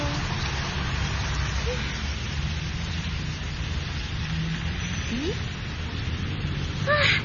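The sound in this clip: Rain falls steadily as an even, continuous hiss that holds at the same level throughout, with a few faint brief chirps near the end.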